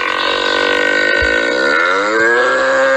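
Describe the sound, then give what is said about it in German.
A bull in a barn at the Zug bull market gives a deep, drawn-out bellow, one loud sustained call with rich, buzzing harmonics that lasts the whole moment. “Wir bewundern die mächtigen und muskulösen Stiere am Zuger Stierenmarkt, der heute aufgeht.”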